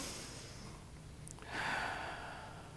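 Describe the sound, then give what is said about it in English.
A single deep breath drawn in during a guided group breathing exercise, a faint airy inhale that swells midway through and holds steady to the end after a quiet stretch. “Let us gather ourselves as one and breathe together. Let's breathe in. Breathe in.”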